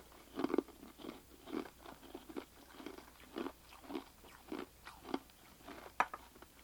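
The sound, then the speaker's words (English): Someone chewing ice: a faint, steady run of crisp crunches and crackles, roughly every half second, heard alone with no talk. “She's chewing on her ice.”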